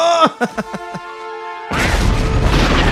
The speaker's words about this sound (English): I like the explosion right here, and he just like ran like 10 feet away. And the entire forest just ignites.